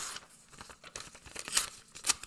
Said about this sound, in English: Rip up together. 1, 2, 3.